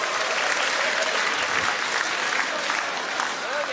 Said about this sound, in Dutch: Wat een geweldige avond. Juich maar even.